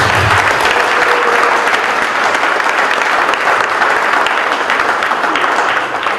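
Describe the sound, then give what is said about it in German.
Applause for children at a table tennis mini championship: a dense, even patter of many hands clapping, sustained and loud, easing slightly at the very end. “Und ich denke, das ist schon mal ein Riesenapplaus wert für die Kinder.”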